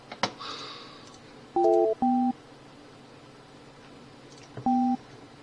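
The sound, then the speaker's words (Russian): Touch-tone beeps as a telephone number is dialed: a few short, clean electronic tones in quick succession, then a pause and one more, over faint background hiss. “Так, набираю.”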